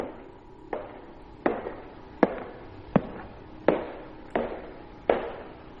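Clattering footsteps outside, a run of about eight hard, sharp steps spaced evenly in a steady walking rhythm, each loud knock decaying quickly.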